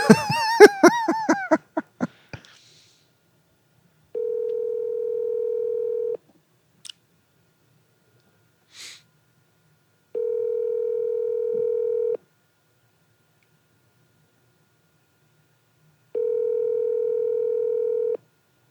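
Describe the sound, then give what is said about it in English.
Outgoing phone call ringing: three steady mid-pitched tones, each about two seconds long, separated by roughly four seconds of silence, after a brief burst of sound at the start and a couple of faint clicks between rings. “We'll see if this works. Who are you calling? I'm calling Chad.”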